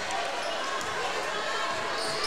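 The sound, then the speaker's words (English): Basketball dribbled on a court during a game, as a player holds the ball for the last shot of the quarter; soft bounces sit beneath a steady, loud wash of crowd noise. “Still with the dribble. And he's going to play for the last shot here. Now picks up his dribble.”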